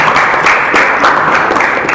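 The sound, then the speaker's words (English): Audience applause for a college student, a loud, dense, continuous clatter of many hands clapping with slight pulsing swells throughout. “Give an applause.”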